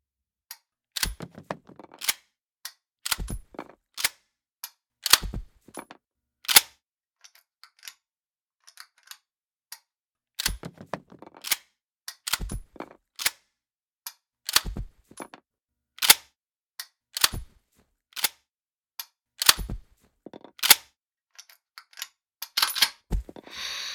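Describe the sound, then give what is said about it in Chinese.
Gunshots fired after aiming sound as many sharp, quiet cracks in irregular clusters, separated by short silences and a few small clicks. “瞄准后射击。”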